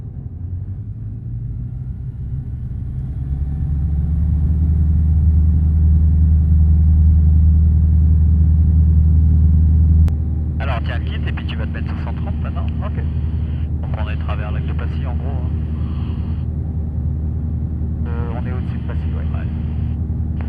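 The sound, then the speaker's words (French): A light aircraft takes off from runway 35. Its engine drone swells into a loud steady roar, and from about halfway through, narrow-band radio voices break in over the engine in several bursts. “Salanche, Alpha India, aligné sur piste 35, nous décollons.”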